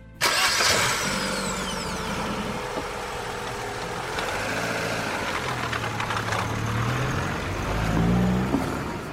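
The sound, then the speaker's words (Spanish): A car engine cranks and fires up abruptly, then settles into a steady mid-pitched running drone that swells with revving near the end as the car drives off. “Ana sube al coche y arranca, y Remy cierra la puerta tras de sí.”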